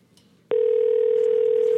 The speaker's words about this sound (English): I'll call him back to do a survey.